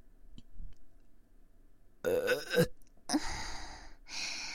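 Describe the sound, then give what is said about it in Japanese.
A big human burp: a loud, voiced, low belch lasting under a second, followed by a few more noisy vocal bursts. “次は大きいゲップ。”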